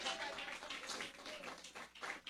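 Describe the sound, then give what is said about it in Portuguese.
Church audience clapping their hands during worship, fairly faint, with repeated pulses of claps that rise and dip in a loose rhythm. “bate palma, meus irmãos. Não deixe as mãos paradas pra não entrar no céu, com as mãos enferrujadas. Amém, bate as palmas alegre.”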